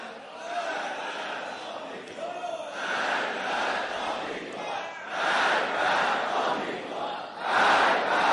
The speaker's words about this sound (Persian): آفرین، چقدر باهوش، علیه غرب زده ها شعار ندادید، علیه غرب شعار دادید.